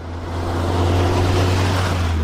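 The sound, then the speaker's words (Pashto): An aid-carrying motor vehicle arrives on a gravel road from Baghran district to Lashkar Gah, its low, steady engine drone swelling over the first second and then holding constant. “د باغران ولسوالۍ ته پر غزیدلی کنډ او کپر سړک د روان هغه کومک لرونکي بایپور موټر ژغ دی چې اوس مهال مرکز لشکرګاه ښار ته د باغران ولسوالۍ څخه راورسېدلی.”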